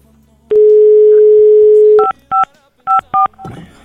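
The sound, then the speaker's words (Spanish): A telephone number is redialed during a radio call-in: a loud, steady dial tone holds for over a second, then a few short keypad beeps follow with uneven gaps, ending in a brief rustling noise. “A ver, vamos a volver a marcar”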